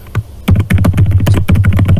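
Rapid keystrokes on a computer keyboard as a chat name is typed into a text field, many crisp, loud clicks in quick, fairly even succession.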